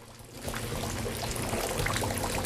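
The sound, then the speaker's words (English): Water pours into a ship's hold through bullet holes, making a steady, broad rushing and splashing that swells slightly after the first half second and then holds level. “Water continues to pour into the hold through the bullet holes.”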